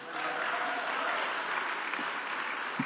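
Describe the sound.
An audience applauds to welcome a Christian singer and songwriter onto the stage at a ministry event: dense, steady clapping that keeps up without a break from start to finish.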